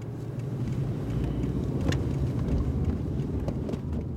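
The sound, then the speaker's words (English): A car drives around the town of Firestone, giving a steady low road-and-engine rumble with some wind buffeting. It holds even and unbroken for the whole stretch, with no talking. “I'm driving around Firestone with anti-oil and gas activist Shane Davis.”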